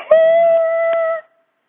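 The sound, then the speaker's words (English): An elephant call in a children's story about a little mouse: a single sustained, steady, trumpet-like tone lasting about a second, loud and alone, then cut off into silence. “And then he met an elephant, which went,”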